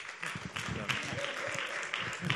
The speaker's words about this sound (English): Let's give him a hand of welcome.